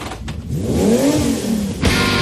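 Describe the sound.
A Suzuki Jimny off-road car's engine revs once, its pitch climbing and then falling away, loud and steady with no talk over it.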